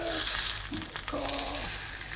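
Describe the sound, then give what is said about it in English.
Butter browning in a pan gives off a steady, moderately quiet sizzle, a continuous bubbling hiss that holds even throughout. “And then now I'm gonna brown some butter.”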